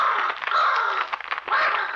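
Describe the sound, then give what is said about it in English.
A huge black raven perched on the head of a bed gives harsh, raspy caws, one long grating call and then a second, loud and alone. “On the head of the bed perched a huge black raven, and as it saw Ned, it flapped its wings angrily.”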